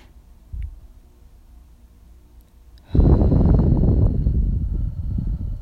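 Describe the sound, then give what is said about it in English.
A deep breath drawn in: a long, airy rush of breath that starts suddenly and holds steady for almost three seconds. A brief soft puff comes earlier. “Deep breath in.”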